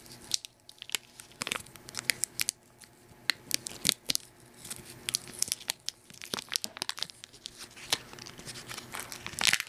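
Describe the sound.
Food wrapper crinkling and tearing as it is opened, a dense run of many sharp, dry crackles and snaps at varying loudness, with no clear voices over it.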